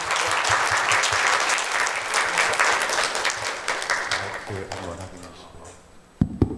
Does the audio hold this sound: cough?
no